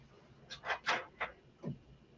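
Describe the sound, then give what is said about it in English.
Screws being driven in to hold a control board make a few short, faint whirring bursts in quick succession, the last one dropping in pitch as it winds down. “All right, I'm putting screws in.”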